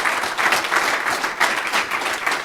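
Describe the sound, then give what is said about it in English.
Conference audience in Düsseldorf applauding an organiser, a dense, steady wash of clapping that holds at an even level for the whole stretch with no voices over it. “So give a warm round of applause to Christian.”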